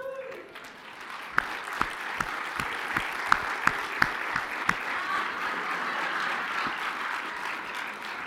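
Audience applause welcoming a guest to the stage, a steady dense clapping that holds for about eight seconds, with a run of sharper, louder individual claps standing out early on.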